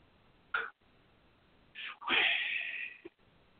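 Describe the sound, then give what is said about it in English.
Breathing in during a Six Healing Sounds breathing exercise: a few separate breathy sounds, the longest a sustained, airy inhale lasting nearly a second, followed by a soft click. “So breathe in. Start breathing out. Shway. Come back up. Breathe in.”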